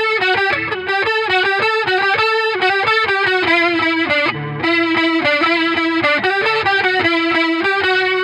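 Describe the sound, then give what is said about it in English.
An electric guitar played through a super overdrive pedal and a small chorus clone pedal gives a loud, distorted, shimmering tone. It plays a steady, busy riff of chugging notes with one brief dip partway through. “I am in love with this sound, with the super overdrive and the small clone.”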